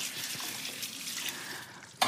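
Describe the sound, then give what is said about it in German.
Tap water runs steadily as hands are washed in a kitchen after handling fish and chicken. A soft, even hiss continues throughout, and a brief sharp knock comes near the end. “immer die Hände waschen”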